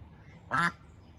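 One short, loud nasal quack from a backyard flock of garden ducks by a gate, standing out briefly against a quiet, steady background.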